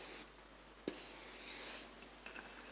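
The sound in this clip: Faint scratchy strokes of a coloured marker drawing on a board: a sharp tap, then rubbing, squeaky scribbles rising and settling, with a few light ticks near the end and no talking.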